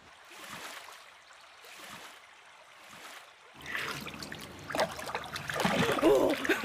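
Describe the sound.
Water splashes as a young lady plays in a canal, starting with a few faint, evenly spaced swishes and then building into louder, busier splashing and sloshing.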